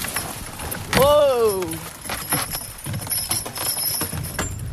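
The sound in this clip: Horses being hitched to a wooden sleigh outdoors in snowy winter, with a short tonal cry followed by faint clinks, jingles and shuffling over a steady, noisy background.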